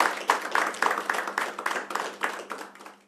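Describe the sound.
Audience applause welcoming a singer and her band in a kafana: many sharp claps fall in a steady, even rhythm, fairly loud, over a low constant hum.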